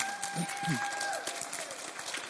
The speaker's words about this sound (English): So now, give them a big clap.